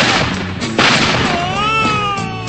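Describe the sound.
A gunshot sound effect: one sharp, loud blast followed by thin, wavering high-pitched tones.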